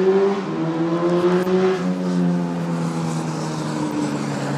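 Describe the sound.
Cars race up and down a street with a loud, harmonic engine drone. Its pitch shifts and slowly dips as the vehicles rev and pass, and no voices are heard.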